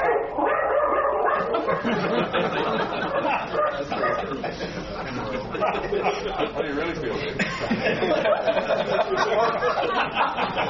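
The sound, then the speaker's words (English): A dog barking repeatedly in sharp yips and woofs while people keep talking, the barks and voices mixing into a dense, steady level throughout. “Oh, that was what happens when you inherit your daughter's dog.”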